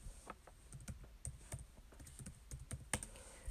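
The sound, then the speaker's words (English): Typing a search on a computer keyboard: a steady run of many quick, light key clicks with a few sharper, louder strokes and no voices. “Let's look that up. I'm just going to type in fastback.”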